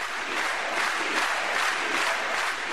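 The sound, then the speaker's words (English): Communist Party Congress delegates in Havana give Fidel Castro a standing ovation: loud, sustained applause mixed with cheering from a large crowd, steady and unbroken throughout. “Party leaders gave Fidel a rousing welcome.”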